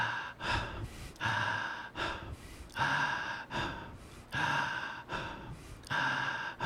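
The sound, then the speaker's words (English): Fast, forceful breaths drawn in and pushed out through the mouth during a guided breathing exercise, with many quick inhale-exhale cycles in a steady, even rhythm and no talk. “So the breath is in through the mouth and out through the mouth.”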